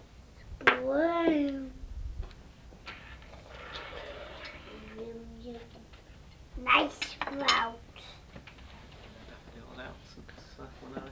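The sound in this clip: Cutlery clinks and scrapes against a plate as meat is cut up at a home meal, giving a few sharp metallic knocks while people talk over it.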